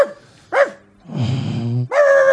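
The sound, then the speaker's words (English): A dog, a recent winner of a world's ugliest dog competition, barks and yips in a studio. A few short tonal yelps are followed by a longer, rough, rising whine-like stretch, with no talk. “Did you see the dog? Oh, he's here now.”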